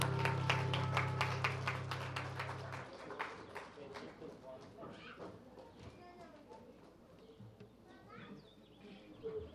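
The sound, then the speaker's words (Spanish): Applause for the mothers at a children's show, starting as brisk, rhythmic clapping over a low steady hum, then thinning into scattered, softer claps over several seconds. “Ya es muy tarde, no les vaya algo a pasar aplauso a las mamás.”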